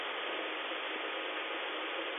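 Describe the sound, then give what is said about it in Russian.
Steady whirring drone of an engine running during a control test, an even, unbroken hum that holds the same loudness throughout. “Вверх есть работа. Вниз есть работа двигателя.”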